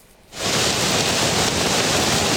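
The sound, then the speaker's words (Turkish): Steady roar of heavy rain and rushing floodwater during a downpour in Samsun's Havza district, Turkey. It begins abruptly after a brief quiet moment and holds at a constant dense hiss to the end, with no voices. “Samsun Havza ilçesinde dün akşam saatlerinden itibaren etkili olan sağanak yağış vardı ama sadece Samsun değil yurdun birçok bölümünde gece boyunca sağanak yağışlar yaşandı. O görüntülere bakalım”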